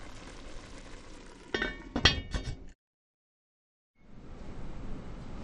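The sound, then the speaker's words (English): Spoon clinking against a pot as a cooking mixture is stirred, a few sharp metallic clinks over low steady noise, followed by a silent break before the background noise returns. “Okay, I just want to stir it periodically, make sure it's not sticky.”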